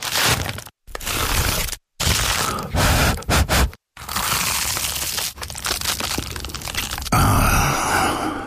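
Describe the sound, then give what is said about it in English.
Loud crunching and crackling come from someone biting into and chewing an award-winning baked pie. Several bursts are split by brief silences, and the crunching ends in a longer stretch. No one speaks. “Today, we invite you to eat with your ears.”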